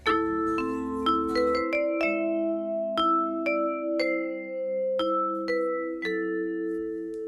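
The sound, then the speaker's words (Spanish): A vibraphone plays a melodic run of many struck metal-bar notes. Each tone rings out clearly and overlaps the next with long, floating sustain, heard alone at moderate volume. “Entonces, así suena el vibráfono.”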